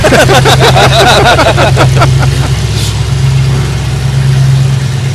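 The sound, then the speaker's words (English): A race car motor running loudly at a racing event, with fast revving and swinging pitch early on, then settling into a steadier, throaty drone. “That motor sounds good.”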